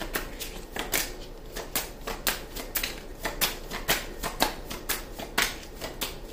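A deck of tarot cards is shuffled by hand, producing many quick, papery riffling bursts at a steady, even rhythm. No voices are heard.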